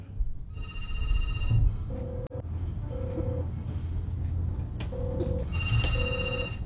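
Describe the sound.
Telephone ringback tone while a caller is being phoned back: four short, steady, mid-pitched beeps grouped in two closely spaced pairs, sounding over a continuous low background.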